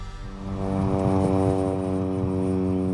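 Steady engine drone inside the cabin of a small propeller airplane, a loud, even hum with stacked tonal harmonics that swells slightly in its first half-second and then holds constant throughout.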